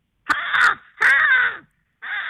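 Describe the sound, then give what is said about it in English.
An American crow caws three times, each a harsh, raspy, drawn-out call, loud and alone, with short gaps between them. “The American Crow.”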